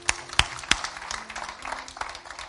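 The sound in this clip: Applause from an audience at a church worship service. It opens with a few sharp, loud claps, then turns into softer, scattered clapping.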